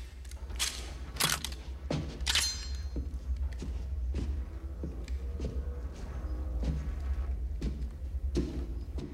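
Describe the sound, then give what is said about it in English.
Gunshots fired from a staircase: several sharp, loud reports burst out in the first few seconds, then fainter knocks and clicks follow over a steady low hum. “He unloads. McCool shoots from the stairs.”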